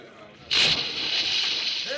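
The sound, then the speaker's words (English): A person plunges into the water among boats: a sudden loud splash, followed by sustained sloshing and churning water that continues to the end. “I am going into the water.”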